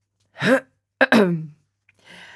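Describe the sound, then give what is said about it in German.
A voice performs a wizard clearing his throat: a short rough grunt, then a sharper two-part hack, trailing off into a faint breathy rasp. “Talibus Album räusperte sich.”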